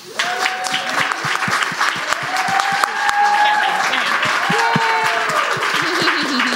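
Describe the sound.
Applause from an audience at a gathering for mothers welcoming a woman speaker: loud, steady clapping that fills the whole stretch, with voices calling out above it.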